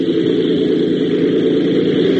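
An aircraft engine roars at full throttle for a takeoff run down a field, a loud, steady droning hum that holds without pause and with no voices over it.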